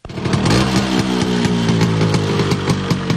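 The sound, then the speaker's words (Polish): The small engine of a legendary Italian scooter runs with a loud, steady buzzing putter and layered harmonic tones. It starts abruptly and keeps going without talk. “wyruszył w podróż 13 czerwca, podobnie jak jego idol, legendarnym włoskim skuterem.”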